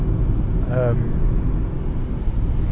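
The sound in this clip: Steady low rumble of a car's engine and road noise while driving home along a winding, barely icy country lane, constant and even, with brief talk over it.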